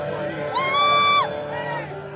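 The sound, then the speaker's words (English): Audience members yelling at a live comedy show: one long, high, sustained whoop rises over a steady crowd murmur, followed by a shorter, fainter call. “Who's yelling?”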